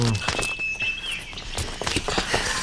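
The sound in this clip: A man runs away on foot with quick, irregular footsteps that thud and scuff at varying loudness throughout.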